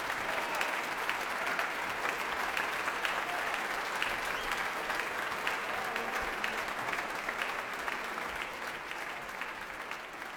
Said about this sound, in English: Ilan Volkov back on stage now, applauding his players.